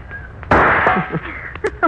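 A single sharp rifle shot at a can swinging like a pendulum on a rigged target, a loud crack with a lingering, decaying tail, followed by a few faint small knocks.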